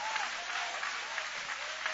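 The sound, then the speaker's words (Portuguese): A church audience applauding during a worship service, a faint but steady wash of many hands clapping that runs evenly throughout, with no clear voices on top. “podem aplaudir, podem louvar, podem exaltar.”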